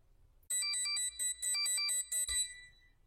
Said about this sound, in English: That's the sound of my Amazon pager going off and alerting me to a possible issue with one of my services.